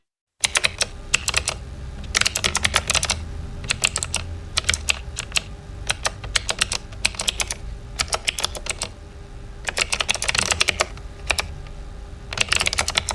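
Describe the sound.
Typing on a computer keyboard: many crisp, rapid keystrokes come in bursts and clusters, with short pauses between runs. The clicking is moderately loud and continues throughout, with no voices.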